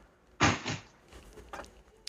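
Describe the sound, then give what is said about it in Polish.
A window is pulled shut against outside noise: a loud sliding thump comes first, followed by a few fainter knocks and clicks, with no voices. “Natomiast przepraszam, za oknem mam hałasy, już zamykam.”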